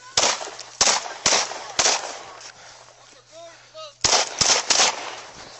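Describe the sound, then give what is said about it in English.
Gunshots ring out during a police encounter: sharp, loud cracks in two rapid bursts, separated by a quieter pause. “Shots fired.”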